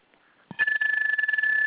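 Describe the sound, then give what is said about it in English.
A mobile phone rings with a loud, steady high electronic tone that holds for over a second. A short low thump comes just before the ring starts. “That's my phone acting up.”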